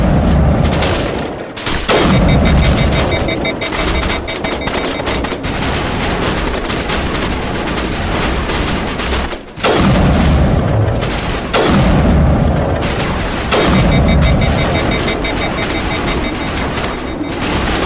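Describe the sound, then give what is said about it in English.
Sniper rifles fire from a hilltop at a mercenary camp in a video game, producing many sharp, loud booming shots in dense succession, broken by a few brief pauses. “Gotta slow down our sniper fire here.”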